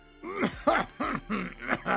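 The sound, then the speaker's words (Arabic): Acted coughing from a vizier in a folk tale: a quick run of hoarse, voiced coughs and groaning bursts, fairly faint, delivered by a voice imitating the sound. “وواصل الوزير حديثه وهو يكح.”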